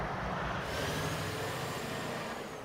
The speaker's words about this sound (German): Das ist der letzte Schwertransport in dieser Nacht mit dem Grundkörper des Krans, 119 Tonnen schwer.